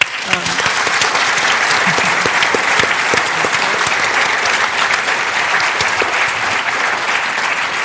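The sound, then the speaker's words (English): Audience applause closing a Te Reo session at the Dunedin Writers and Readers Festival: loud, dense, even clapping that holds steady for the whole stretch. “Hō mai te paki paki.”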